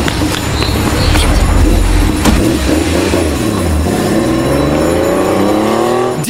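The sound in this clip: A getaway car's engine roars loudly and continuously, its pitch dipping and then climbing steadily as it revs hard in the final seconds.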